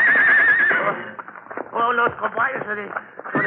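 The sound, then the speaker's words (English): Horses whinny and neigh beside a buckboard as their hooves clip-clop, a high wavering neigh opening the scene before rougher, bursting calls and hoof beats follow, loud and close. “Oh, those caballos, they not run away again. I will take care of the caballos.”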